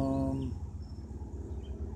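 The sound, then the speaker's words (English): Faint insects chirp outdoors on a back deck, a thin, high buzzing over a low, steady background hum. “Got a lot of bugs out here right now.”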